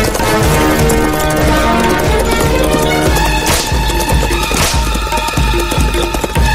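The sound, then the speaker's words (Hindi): Horses gallop fast through trees as mounted bandits chase a horse-drawn cart, their rapid, driving hoofbeats thudding steadily beneath loud, dramatic orchestral music that dominates the mix. “पेड़ों के बीच में से बाएं से दाईं ओर को तेजी से भागते हुए घोड़े।”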